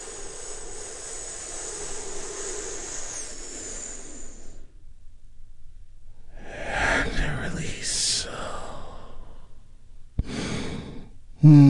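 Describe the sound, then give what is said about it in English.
A long, deep inhale lasts about four seconds, taken as part of a guided calming breathing exercise. After a short pause come further breathy sounds and a brief louder noise at the end. “I want you to take a big, deep, healing breath with me right now.”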